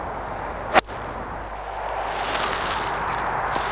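A full hollow-headed golf 4-iron strikes a ball with a single sharp, loud crack, followed by faint steady hiss.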